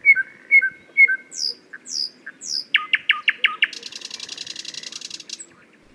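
A flute imitates a nightingale within orchestral music, joined by imitations of a quail and a cuckoo, heard as bright chirps, short repeated rhythmic notes and a fast, steady pulsing trill, fairly loud with no voices.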